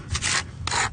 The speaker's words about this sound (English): using a plastic snow scraper on the rough base of a polished granite monument